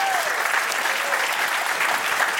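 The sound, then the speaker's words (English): A church audience applauds a team member, a dense, sustained round of clapping that stays loud and even across the whole moment. “Give Bev a hand.”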